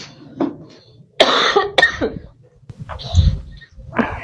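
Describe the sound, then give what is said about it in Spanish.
Coughing from a person, a series of harsh, raspy bursts separated by short pauses, fairly loud and with no speech around them. “Ese tipo de toses, cuando una entidad te está extrayéndote la energía”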